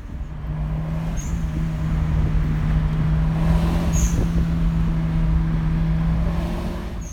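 Steady road and engine noise from a car driving along, with a continuous low hum and broad rushing sound at an even level throughout. No voices.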